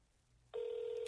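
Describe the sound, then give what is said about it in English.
A telephone call is placed: after a moment of near quiet, a single steady electronic phone tone switches on abruptly and holds unchanged to the end. “This is a great way to end a podcast with a fucking phone call.”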